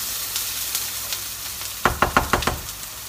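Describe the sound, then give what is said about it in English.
Garlic and onions sizzle in a frying pan with a steady crackling hiss, joined near the end by a quick run of several sharp knocks from stirring. “So we have the garlic going in now. When the garlic and onions have got slightly browner, you can pop the mince in.”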